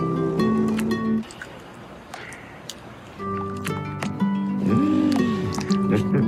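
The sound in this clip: Wet, sticky squelching from a man swimming through chocolate in an M&M's Super Bowl ad, with dripping, gooey sounds mixed under voices and brief tonal bits.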